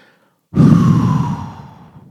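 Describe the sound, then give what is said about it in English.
A deep breath drawn in during a meditation exercise: after a short silence, one long, loud, breathy inhale begins abruptly and fades gradually over about a second and a half. “Deep breath in.”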